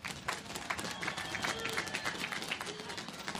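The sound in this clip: Applause rises from an audience welcoming guest speaker Iowa Senator Joni Ernst at the USS Sioux City commissioning ceremony, a fairly faint, continuous patter of many hands clapping.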